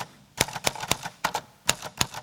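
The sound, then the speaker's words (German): Typewriter keys strike sharply at an opening-evening writing performance, roughly nine crisp clacks in uneven bursts with short gaps, loud and alone with no voices. “Handy weg und ran an die Schreibmaschine.”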